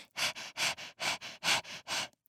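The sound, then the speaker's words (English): A person imitates a tiny dog's panting during a singing warm-up: a rapid, even series of short, breathy, hissing exhalations, about eight quick puffs, voiced by a human rather than a dog. “Place your hand on your larynx, or your Adam's apple, and now exhale. I want you to pant like you are a tiny little dog.”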